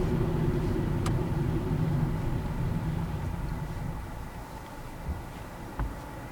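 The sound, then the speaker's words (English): A car drives through a town with a steady, low engine and road rumble. The drone stays even and eases slightly toward the end, with a couple of faint knocks. “I'm just driving through a town here right now with lights.”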